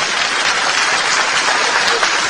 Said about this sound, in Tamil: அரங்கமே அதிரும்படி கைத்தட்டலுடன் முதல் பரிசும் பெற்றான் மலர்வண்ணன்.